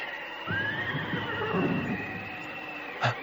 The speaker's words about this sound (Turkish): Bir at sesi mi duydum?